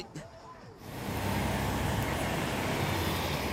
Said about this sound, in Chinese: 车辆如马匹牵引，竟风驰电掣，哎呀，怪哉呀！